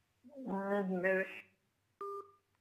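Telephone tones on a live call-in line: a longer wavering tonal sound, then a short, sharp electronic beep after a brief pause.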